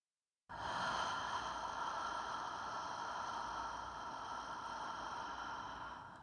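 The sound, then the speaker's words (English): Slow, deep breathing during a calming breathing exercise with a longer exhale: one steady, airy breath-hiss runs about six seconds at an even level and tapers slightly at the end, with no talking. “So they go in and then I have them exhale, but I tell them go really slowly. And when they do, they go out.”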